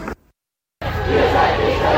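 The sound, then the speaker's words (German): Crowd noise from protesters at a street blockade facing a police line: a brief burst at the start, a short silence, then a loud, steady wash of massed voices and babble. “Ihr hört hier im Hintergrund die Blockade, die sich aus Hochheim gelöst hat Richtung sozusagen Stadt, Richtung Wartburgstraße.”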